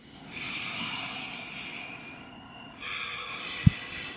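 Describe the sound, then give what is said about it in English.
A deep breath during yoga practice: a long, soft, breathy draw of air, a short pause, then a second long airy breath, with a brief low thump near the end. “maybe we can take a deep breath together.”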